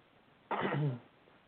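A single brief, rough throat clearing from someone whose throat feels blocked after eating. It is fairly faint and stands alone, with no talk.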